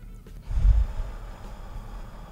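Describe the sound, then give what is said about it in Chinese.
One deep breath taken during a guided meditation breathing exercise: a soft, airy burst of breath of under a second, low and breathy, with quiet around it and no talking. “咱都过来吸气跟吐气哟，一样吸三秒，吐三秒。”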